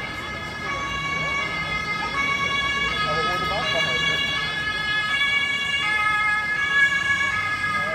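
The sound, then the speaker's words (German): A police car siren wails steadily with a bright stacked tone, holding loud and continuous over a constant background rumble throughout. “Wir warten kurz noch den Krankenwagen ab. Hier ist Polizei. Da klingt nämlich Polizei.”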